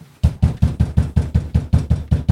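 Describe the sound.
Knocking on a door: twelve heavy, evenly spaced thumps in a rapid steady rhythm, each a low, punchy knock.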